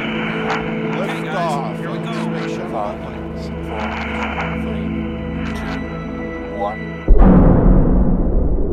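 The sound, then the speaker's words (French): A rocket lifting off into space, bound for Mars, breaks in near the end as a sudden loud, rough roar after a steadier tonal passage. “la fusée s'envole sans encombre. Me voilà donc dans l'espace.”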